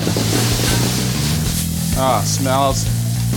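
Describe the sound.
Hissing sizzle of meat frying in olive oil in a hot pan, a continuous crackling wash with a voice briefly speaking over it.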